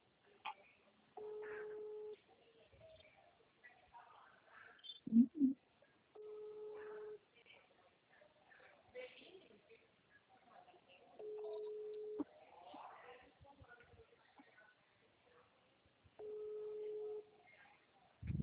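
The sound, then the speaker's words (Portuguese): A WhatsApp call ringing tone on an outgoing call: four evenly spaced, faint, steady tone bursts about five seconds apart, with a voice talking quietly between them. “É que eu tô ligando pelo WhatsApp. Peraí. Tá ouvindo? Ó, tá ligando.”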